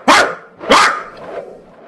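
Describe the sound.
A man's voice imitates a scared, injured dog with hind legs it cannot use: two sharp, yelping cries followed by a softer, trailing whimper.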